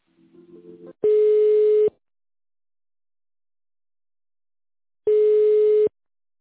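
Telephone line tones while a call is transferred to the accounting department: two long, steady beeps of the same pitch about four seconds apart, with silence between. A brief, faint run of lower tones comes before the first beep.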